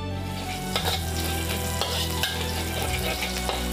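Garlic sizzles steadily in hot oil while being stirred, a dense crackling fry with a few sharper scraping stir sounds breaking through at intervals.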